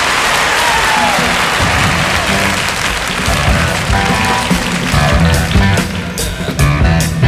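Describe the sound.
Audience applause greets a newly introduced rock group, loud and continuous. Toward the end, sustained musical tones and sharp drum-like hits start coming through beneath the clapping.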